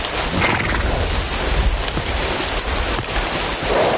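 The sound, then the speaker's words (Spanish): Heavy rain pours in a loud, unbroken hiss while horses graze, with faint horse sounds blended into the steady downpour. “Una lluvia intensa cae al rato y se refugian bajo un frondoso árbol mientras los caballos pastan descansando.”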